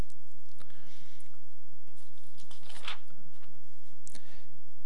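A paper page is turned over while working through equations: one brief, soft rustling swish amid faint background noise, with no talk.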